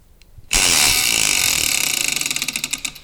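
A wheel is spun, giving a loud whirring rush of rapid clicks that gradually separate into distinct ticks as it slows.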